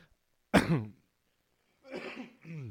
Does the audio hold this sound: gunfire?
no